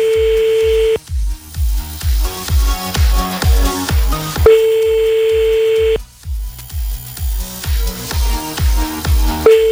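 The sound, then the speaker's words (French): Ringback tone of an outgoing telephone call, with two steady, even tones separated by a long pause. Music with a regular thumping beat plays loudly underneath. “Ça décroche là quand même. Encore une sonnerie.”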